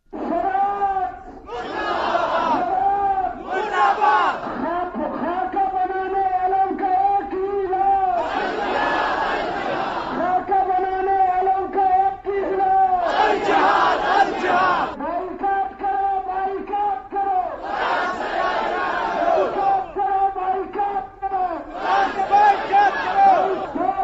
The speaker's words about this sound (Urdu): اہل سنت والجماعت کے مظاہرے کے دوران شرکا نے یہ نعرے لگائے،